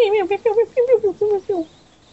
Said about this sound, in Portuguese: Parece que tens pássaros a cantar no teu microfone.